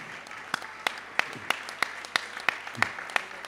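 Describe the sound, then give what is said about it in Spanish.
Applause for a helper who lent a keyboard, tambourine and cajón at a music event comes as a steady series of sharp, evenly spaced claps that stand out clearly over a soft background hum. “Pues un aplauso para Emiliano, que queremos compartir aquí con él un momento.”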